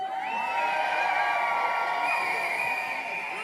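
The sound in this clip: Crowd cheering at a healthcare workers' protest on the Federal Square in Bern, a continuous wash of voices with sustained high whoops and shouts riding over it.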